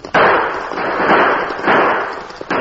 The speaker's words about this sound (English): He fired into the air and raced toward the stage with the three crooks.